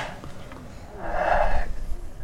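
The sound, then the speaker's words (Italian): People breathing in deeply together: a quiet stretch gives way to a swelling, airy rush of inhaled breath that holds for about half a second, then tails off into softer, uneven breathy noise. “fate come me, provate a chiudere gli occhi e a respirare profondamente.”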